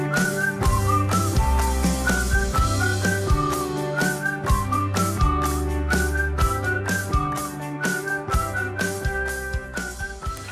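Short whistling at the close of a pop song: a bright, pure whistled melody rides over a steady beat, bass and chords, with no singing.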